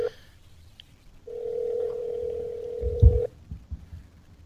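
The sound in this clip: A telephone call rings out as one steady, even ringback tone lasting about two seconds, set over faint low background noise, with a brief low thump near its end.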